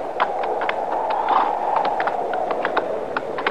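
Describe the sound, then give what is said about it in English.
A horse with a bad leg is walked, its hooves clopping in many steady, moderately loud beats over a constant low background rumble, with no talk. “How about the horse, Chester? Ain't nothing broke that I can see. See if he'll stand. Come on, boy. Come on. All right, walk him a little.”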